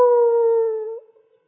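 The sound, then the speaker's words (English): A human voice imitates a dog howling: one sustained, steady-pitched howl with a brief upward lift near the end before it trails off into silence. “he did some notes that just sounded so, your skin would curl and, you know, the dog would go,”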